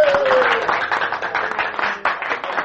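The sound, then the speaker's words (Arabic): Applause from an audience after a speech praising a director in an Egyptian radio drama: brisk, crackling clapping from many hands, loud and continuous, with a burst of fresh claps near the end. “كفى كفى تصفيق أيها السادة.”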